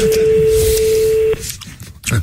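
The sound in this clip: A single steady telephone tone holds at one pitch for just over a second, then cuts off abruptly, leaving faint handling noise and a short rustle while a call is placed.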